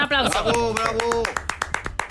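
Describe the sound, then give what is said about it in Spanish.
Clapping from a small audience at a quiz contest, crisp rapid claps beginning under a speaking voice and then continuing alone in a quick, fairly even patter. “Eso se merece un aplauso, ¿no? Un aplauso. Bravo.”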